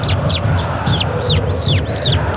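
A person imitates the call of the chor bird with a rapid run of many high, sharp, downward-sweeping whistled chirps over a steady wash of background noise.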